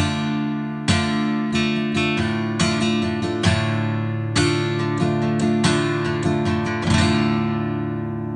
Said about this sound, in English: so today we're doing D minor, and it sounds like this.